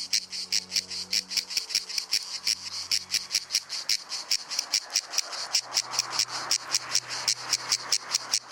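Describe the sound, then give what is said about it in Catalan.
Cicada orni cicada singing on a hot summer day in Menorca's woods and fields, a loud run of many rasping, buzzing pulses in a steady, rapid rhythm, heard alone without voices. “La xigala és un insecte estival per excel·lència. De nom científic Cicada orni, és l'únic representant del seu gènere i família a les Illes Balears.”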